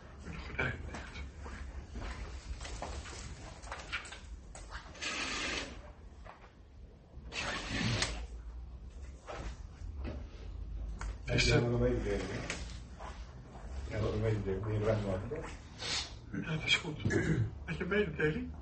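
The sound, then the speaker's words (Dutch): Curtains being drawn closed give a few broad, sliding swishes, with voices heard at times. “Ik trek even die gordijnen dicht. Ik trek die gordijnen dicht.”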